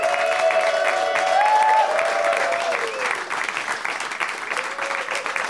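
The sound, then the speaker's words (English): Applause from a live audience welcomes three guests onto a stage, a loud sustained clapping with whoops and whistles that holds steady and eases slightly toward the end. “Please give a big warm welcome to Ian Carmel, Josh Brown, and Jay Chandrasekhar.”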